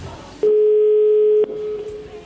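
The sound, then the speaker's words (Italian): A single steady ringback tone from an outgoing telephone call sounds for about a second: one flat, mid-pitched beep that starts and stops abruptly, with quiet line hiss around it. “Primo squillo. Secondo.”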